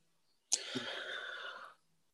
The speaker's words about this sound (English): That was the big inhale there, I think.